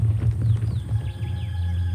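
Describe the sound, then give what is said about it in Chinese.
Horse galloping: a rapid run of low, muffled hoofbeat thuds, strongest at the start, with bird chirps and whistles above. “殿下，陛下吩咐不能纵马奔跑。”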